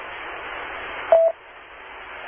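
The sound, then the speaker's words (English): Telephone dialing tone: one short touch-tone key beep rising briefly above a steady band of hiss, which carries on more faintly afterward. “Okay, I gotta go make a quick phone call. I'll be right back.”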